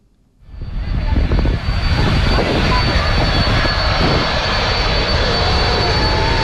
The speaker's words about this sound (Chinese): 从荷兰首都阿姆斯特丹起飞，一路向西向南，历时八个半小时，还可以降落在荷兰的领土。